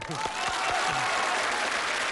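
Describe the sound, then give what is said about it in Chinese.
Applause from an audience at an event, welcoming a winner to give an acceptance speech: a dense, steady clatter of clapping hands that holds at an even level for about two seconds, with faint voices near the start. “好朋友们，接下来我提议让我们今天所有到场的好朋友伸出您的双可爱的双手，欢迎大叔做获选感言。”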